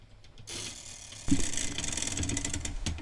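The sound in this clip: A spinner wheel is spun, setting off an abrupt burst of rapid ratcheting clicks that continues steadily to the end.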